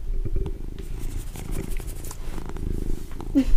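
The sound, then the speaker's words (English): A male cat purrs loudly and aggressively, a steady rhythmic low rumble that continues without a break for the whole stretch, with no voices over it. “You can hear him aggressively purring.”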